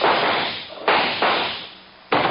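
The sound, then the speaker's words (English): Gunshots ring out in a radio drama, several loud, sharp cracks at irregular intervals, each trailing off in a fading tail before the next one. “Good Lord. Shot him clean through the back.”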